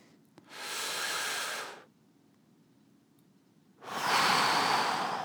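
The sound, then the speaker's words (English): Deep breaths during a guided breathing exercise: two long, airy, hissing breaths separated by a quiet pause of about two seconds, with no talk. “So we invite you to inhale.”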